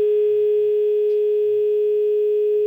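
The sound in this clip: A telephone dial tone sounds after a radio call-in caller disconnected: one steady, unbroken single-pitch hum that holds level and loud for the whole clip, with no voices.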